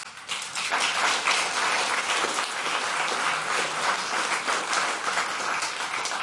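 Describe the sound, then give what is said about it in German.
Applause from a packed hall audience at the RBB roof lounge in Berlin, a dense, steady clapping that swells in and holds at an even level throughout. “Und Sie hören es, der Saal ist rappelvoll.”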